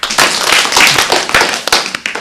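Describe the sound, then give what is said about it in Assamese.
An audience claps loudly after a young child's song, a busy stream of sharp hand claps with uneven peaks that thins out toward the end. “এতিয়া আমি খ্যাতিৰ কাৰণে কি কৰিম? ডাঙৰকৈ হাত চাপৰি বজাই দিম।”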